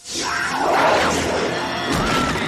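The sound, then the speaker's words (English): Dolls hit against a wall make a loud crashing clatter that starts abruptly and stays dense and sustained, with a further impact near the end. “Then Velma and Daphne show them the dolls. The girls hit the dolls against the wall.”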